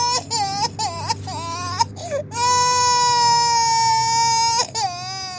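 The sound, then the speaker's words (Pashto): Young children, a two-year-old and a three-year-old sick with a disease in Kandahar, crying loudly with no other voices: a string of short, wavering wails, then one long sustained high cry, and a final brief wail. “دا ژړا بیا د هلمند په گاوند کې د کندهار د اوسیدونکو محمد الله د تنکیو ماشومانو د چی په همدې ناروغي اخته سوي دي”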